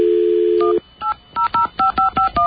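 Telephone keypad dialing tones: a steady dial tone cuts off, then several short, evenly spaced two-tone beeps follow in a quick series as a number is keyed in. No talking is heard.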